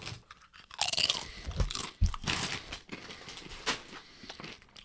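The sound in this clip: Crunching of spicy sweet chili Doritos tortilla chips as they are bitten and chewed, with several sharp crisp bursts followed by irregular, softer chewing crackles and no talk.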